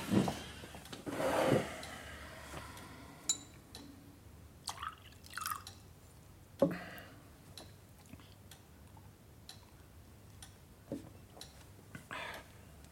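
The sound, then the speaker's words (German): Whisky being poured and a drink prepared: faint liquid dribbles and drips mixed with a few light clinks and taps, quiet and sparse, with no talking. “Ich kann dir doch den Drink zurechtmachen. Setz dich hin.”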